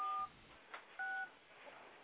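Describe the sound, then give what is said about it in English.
Dialing a telephone number produces two quiet touch-tone beeps, each short and steady, about a second apart, with a faint hiss in between. “What the fuck is dialing something? What the fuck is going on? Somebody calling somebody on a fucking phone?”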